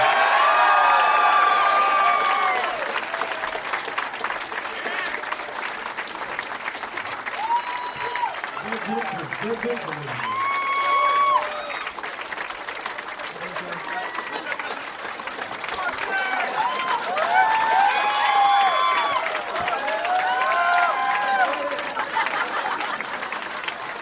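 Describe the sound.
Studio audience applause and cheering as guests are welcomed, a steady wash of clapping that runs the whole clip, with shouts and voices rising over it.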